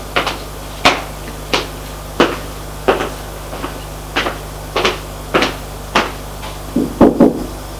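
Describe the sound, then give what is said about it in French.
Knocking on a bedroom door: many sharp, evenly spaced wooden thuds in a steady rhythm, ending in a quick cluster of hits. “Et il va frapper à la chambre de son ami.”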